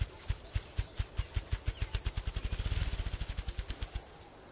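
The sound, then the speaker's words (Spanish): A bird's courtship drumming display of rapid wing beats in Yellowstone in May: many low, muffled thumps that speed up into a quick flutter, then ease slightly before stopping. “El ritual de cortejo llamado tamborileo tiene como objetivo atraer a las hembras y consta de unos 50 batidos de alas con una velocidad máxima de 20 golpes por segundo.”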